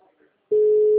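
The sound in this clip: A steady telephone call tone plays while a number is dialed from a chip SIM phone: a single loud, continuous mid-pitched tone that begins abruptly about halfway in, after a quiet, faint lead-in.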